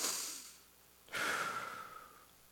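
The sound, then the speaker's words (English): A deep breath taken before morning teaching at a church service: a long airy, hissing breath lasting about a second, preceded by a fainter breathy sound, with no talk over it. “I need a breath before we get into the teaching this morning. So I'm just going to, if you want to take a breath with me, you can.”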